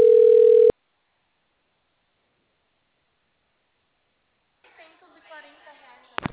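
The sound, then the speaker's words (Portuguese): A phone call comes in: a single steady telephone tone sounds briefly, then silence, and then a voice speaks faintly near the end. “alguém ligando pra mim, mano.”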